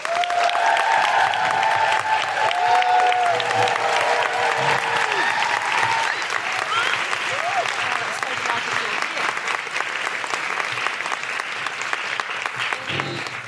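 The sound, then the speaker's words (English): Audience applauding and woohooing as a guest is introduced: sustained, loud clapping with rising and falling whoops and cries over it, holding steady throughout. “Please put your hands together and make incredible woohooing noises for the wonderful Seyi Akiwowo.”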